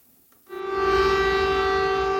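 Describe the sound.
Air raid siren sounding over Kyiv at night during a large Russian aerial attack, a steady sustained tone that begins abruptly after a moment of near-silence and then holds level and loud.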